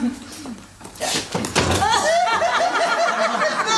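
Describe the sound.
A door being opened for an arriving visitor, with a few dull thuds and a clunk, then people talking over a faint whistling tone.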